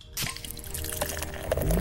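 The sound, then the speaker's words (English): Stout beer pouring from a bottle, a Legend Extra Stout, in a continuous gurgling, splashing rush of liquid that stays fairly steady throughout. “That's the sound of a stout that flows with your personality.”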